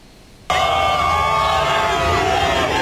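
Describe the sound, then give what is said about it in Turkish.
A crowd cheers loudly to welcome the national football team outside its hotel before a World Cup opener. The roar bursts in suddenly after a brief quiet start and then holds as a dense, steady wall of cheering voices. “Kendilerini bekleyen kalabalık tezahüratlarla desteğini gösterdi.”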